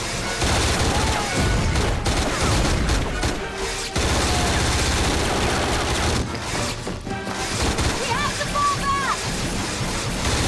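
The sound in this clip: Laser bullets fire back and forth from armored soldiers' weapon staffs amid stone ruins, a dense, continuous crackling volley of sharp bursts that stays loud throughout with barely a pause.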